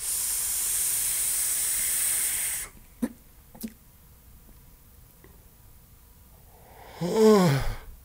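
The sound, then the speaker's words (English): A steady airy hiss of vapour being drawn through an e-cigarette atomizer with adjustable airflow, filled with a mixed e-liquid. The hiss lasts about two and a half seconds, followed by a couple of faint clicks. “I'm just going to try to vape it.”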